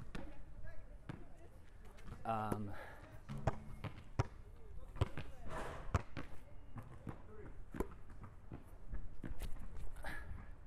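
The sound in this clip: A basketball bounces repeatedly on a hard court during a casual shooting game, with sharp rhythmic thumps of varying strength while people talk and react nearby.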